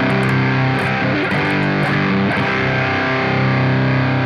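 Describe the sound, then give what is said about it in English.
An electric guitar played through a fuzz pedal into an amp gives a loud, thick, saturated tone. Sustained chords ring dense with harmonics and shift a few times, with no voices. “Sounds fuzzy to me. Sounds big and fuzzy. You know, it's what I would expect to hear more or less, I guess, with a fuzz.”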